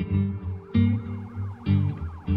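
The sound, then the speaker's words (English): Police car sirens wail as officers surround a building. The loud siren sweeps repeatedly up and down in pitch over a heavy, steady low tone that breaks off and restarts several times. “Minutes after the negotiator leaves, police cars begin to surround the building, accompanied by Ocalanta buses and a helicopter.”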